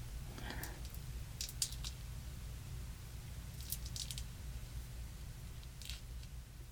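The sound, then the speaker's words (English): Dried glue is peeled off a hand, giving faint, sticky crackles and soft tearing squishes in a few short bursts over a low, steady hush. “the glue has mostly dried on my hand. I'm not sure if I made it thick enough to get a good peel, but we'll see.”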